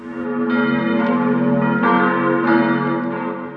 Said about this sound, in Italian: La campanella. Campanella d'argento del convento qui presso, voce di lontana infanzia è in quel fresco tinnire che mi giunge or sì or no